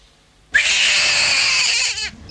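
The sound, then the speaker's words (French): A newborn baby conceived by in vitro fertilisation cries at a fertility centre: one loud, sustained, high-pitched wail that holds for over a second and then cuts off. “Ce sont en effet des cris des bébés par fécondation in vitro au centre”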